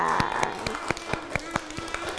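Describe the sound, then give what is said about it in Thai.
Children clap for themselves after a classroom activity, producing a steady, evenly spaced run of sharp claps. A voice is faintly heard at the start. “เด็กๆนะคะตั้งใจในการทำกิจกรรมมากเลยเด็กๆปรบมือให้ตัวเองหน่อยค่ะ”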